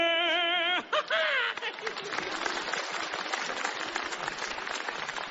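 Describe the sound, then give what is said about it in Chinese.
Audience applause at a comic stage performance, a dense, steady clatter of many hands. It follows a brief held sung note at the start and fills the last several seconds. “大家不要鼓掌了”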